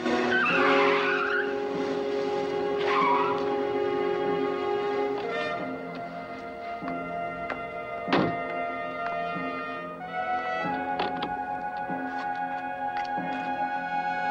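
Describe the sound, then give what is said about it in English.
A car manoeuvres and parks outside a museum, its tires squealing and skidding in long, sustained tonal whines that shift pitch in steps, with a sharp thunk partway through before the squealing carries on. “Outside, Sickle manoeuvres the car, parking with a boot, facing towards the main entrance to the museum.”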